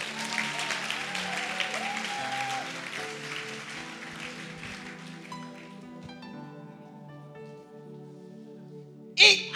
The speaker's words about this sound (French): Acclame Dieu pour les baoulés.